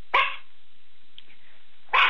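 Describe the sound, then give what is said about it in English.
A dog barks twice at home: two short, loud, sharp barks separated by a long quiet gap with only faint background between them. “You know, I hear your dog.”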